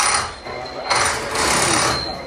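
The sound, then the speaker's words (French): A pneumatic wheel gun unscrews a wheel nut during a Formula One pit-stop tire change. It makes a loud, rattling mechanical whir that rises and dips in a few surges without a pause. “Alors c'est un gun, du coup rien de plus simple. Ouais. Le premier bouton c'est pour dévisser le boulon, ouais. Et le deuxième c'est pour le revisser.”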